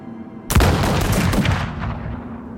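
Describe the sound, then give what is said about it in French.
Musket gunfire in the mountains of the Highlands: a sudden loud blast with crackling reports, then a long rumbling echo that slowly fades. “Mousquet anglais, plomb espagnol, poudre hollandaise, acier allemand. Le nouveau monde surmonte le sien avec une efficacité mécanique. Chaque tir résonne contre les montagnes.”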